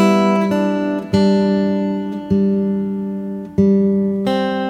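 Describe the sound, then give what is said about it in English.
Open third, second and first strings plucked one after another on a guitar, each clear note ringing on and overlapping the next in a slow, even sequence. “Now what you're hearing there is the third, second, and first strings open, and then my second string, third fret with the third finger by itself,”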